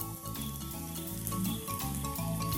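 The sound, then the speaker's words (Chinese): Mushrooms torn into small pieces fry in a pan with a steady, fairly loud sizzle and crackle that continues unbroken from start to finish. “然后就下锅炒了。这个也是蘑菇，我们就剥小下去煎。”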